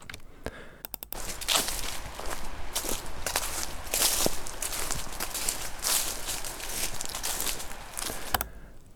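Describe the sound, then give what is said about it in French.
Footsteps walk through grass in a steady series of soft rustling, brushing steps that continue throughout, with no voices. “Des pas dans les herbes. Ok, des pas dans les herbes.”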